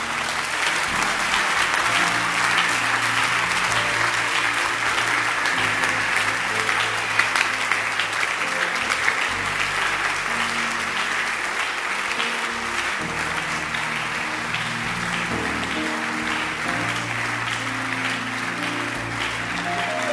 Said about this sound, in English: Clap your hands.